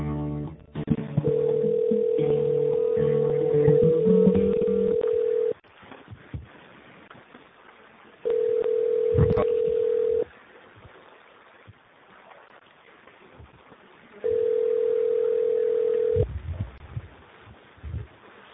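Telephone tones sound while a call is being connected: three long, steady mid-pitched electronic tones, the first lasting several seconds and the next two about two seconds each, separated by stretches of faint line noise.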